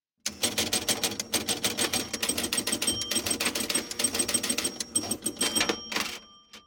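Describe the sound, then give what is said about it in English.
A pinball machine sound effect of flippers gives many fast mechanical clacks and rattles in a dense, rhythmic burst that stops abruptly near the end. “That's supposed to be a pinball sound, but. Yeah, I don't know. I don't buy that one. It sounded like somebody was like flapper handling the sides or whatever the hell.”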